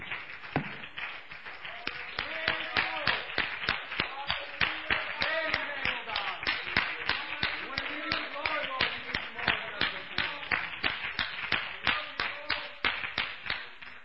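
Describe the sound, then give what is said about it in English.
Congregation applause in a church: many claps in a steady, rhythmic run throughout, with voices sounding over the clapping. “You must give the Lord a round of applause, saints.”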